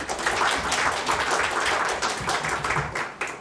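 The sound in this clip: Applause from an audience welcoming a speaker at an academic talk on Chinese, Taiwanese and Hong Kong labor in South Africa: dense, steady clapping with crisp hand-slap transients that holds at an even level for about three seconds.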